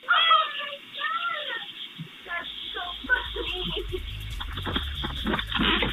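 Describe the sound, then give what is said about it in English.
A cat meows at a home's front door, with a few drawn-out, wavering meows at the start. Rougher scratchy noise and a low steady hum follow. “Lily, activating the doorbell and meowing, and the owner, Stephanie, going out the door and right after the cat had been missing.”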